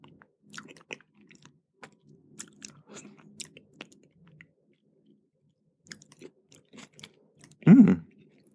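Chewing as someone eats a dish with a spoon; many soft, scattered crunches and mouth clicks, quiet and irregular, with a louder burst near the end.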